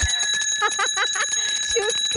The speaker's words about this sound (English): She'll only speak with a bell.